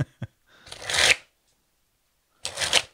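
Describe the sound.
Playing cards riffle-shuffled, a fine, slippery deck: two crisp fluttering bursts, each building to a dense rapid patter, preceded by a couple of short soft taps, with no talking.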